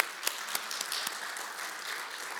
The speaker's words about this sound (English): So let's give our actors a round of applause here.